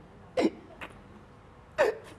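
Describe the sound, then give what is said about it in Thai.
A child hiccups, with two sharp, clear hiccups about a second and a half apart, each followed by a fainter catch of breath, over quiet background and without talk. “เริ่มสะอึกแล้ว”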